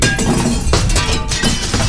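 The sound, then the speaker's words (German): Window glass shattering after being struck by a football: loud bursts of breaking glass with bright, clinking shards, recurring a few times across the short clip. “Oje, jetzt hat er voll ins Fenster getroffen.”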